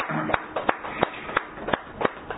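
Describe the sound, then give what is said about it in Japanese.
Applause at a birthday celebration for two family members during a church gathering: several faint, sharp claps spread irregularly across the moment rather than a dense ovation. “盛大な拍手でお願いします”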